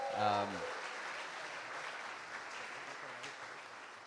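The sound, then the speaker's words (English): Applause for visiting parents: a steady wash of many hands clapping that holds evenly to the end, with a brief voice heard at the very start. “the parents, just from my side, let's give them a hand.”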